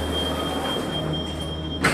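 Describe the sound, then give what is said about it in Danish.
A metro train running: a steady, loud rumble with a thin high whine held throughout, and a brief brighter burst of noise at the very end. “Ja, vi kan tage metro og snyde. Ja. Den går herop et stop.”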